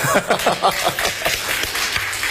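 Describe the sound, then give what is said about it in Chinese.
Sparse, scattered clapping from the audience at a live talk event. A handful of hands strike unevenly in loose, irregular bursts that are fairly loud, with no cheering. “谢谢你们稀稀拉拉的掌声”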